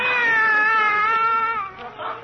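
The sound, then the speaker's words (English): A cat that was made sick by dill pickles gives one long, drawn-out wailing meow. The pitch holds steady and then dips slightly, loud and alone, before it tapers off at the end. “Oh, don't cry, Raymond. I won't give you any more pickles. Raymond, eh? That's a cute name for a cat, sis.”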